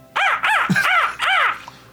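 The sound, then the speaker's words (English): A person imitates a crow's caw, voicing four loud, harsh caws in quick succession, each arching up and then back down in pitch, followed by a faint trailing sound. “Bird, yeah, my spell ran out. The bird sets this down and goes,”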